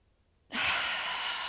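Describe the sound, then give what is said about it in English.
A long breath let out through the mouth during a guided breathing exercise. It begins abruptly after a short silence and continues as a steady, soft, breathy rush. “Out through the mouth.”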